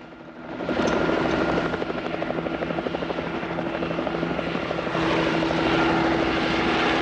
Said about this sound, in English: A rope ladder rolls out from beneath the chopper, swaying in the breeze.